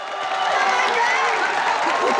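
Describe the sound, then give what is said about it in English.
An audience erupts into applause and cheering after the girls' performance: a dense, loud, unbroken wash of clapping and raised voices that holds steady through the short burst. “Looking uncomfortable, the girls turn to leave. The audience erupts. The girls grin with relief.”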